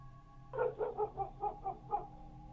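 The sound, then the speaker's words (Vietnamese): A black dog barks outside during wind and rain: a quick run of several short, mid-pitched barks at an even pace, set over a low steady hum. “trong tiếng mưa gió ở bên ngoài, tiếng con chó mực lại cắn lên ông ổng.”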